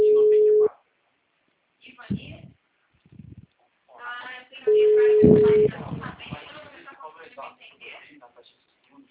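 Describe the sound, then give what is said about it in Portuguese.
Busy tone after a dropped phone call: two long, steady, low beeps, loud and unbroken. The second beep runs under a voice, and people talk between and after the beeps. “Oi, dona Cássia, a ligação caiu.”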